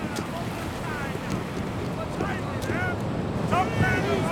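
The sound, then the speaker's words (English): A sailing boat moves on the water with a steady rush of water and wind buffeting the microphone. Voices talk faintly over the noise. “We're sailing. Enjoy it now. Once we hit open seas, it won't be as pleasant.”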